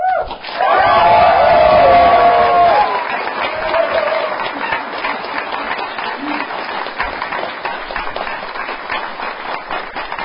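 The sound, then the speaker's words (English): An audience cheers and applauds to welcome their pastor. A loud opening burst carries high cheers, then it settles into softer, steady clapping that continues to the end. “Don't make just a little bit of noise as you welcome your pastor and our friend, Pastor Booth.”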